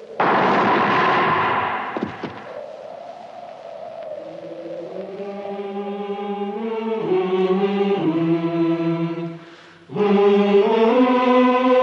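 A rifle volley from a firing squad in a radio drama set in 1940, a loud, roaring burst lasting about two seconds that ends in a sharp crack, then gives way to a sustained tonal sound.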